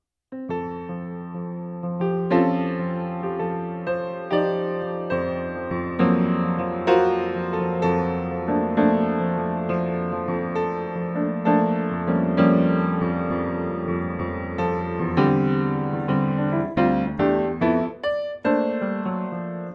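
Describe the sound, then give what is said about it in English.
Jazz standard chord changes played over a pedal point, a sustained low bass note holding steady beneath many shifting struck chords that grow busier and more insistent toward the end, with no voices. “Now, if you use a pedal point, it could sound like this.”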